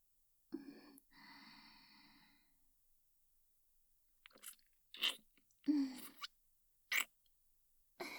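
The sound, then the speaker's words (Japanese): Wet kissing sounds: several short smacking, lip-popping bursts at irregular intervals, preceded by a soft breathy sigh, with near silence between them. “まずはご挨拶のキスから。”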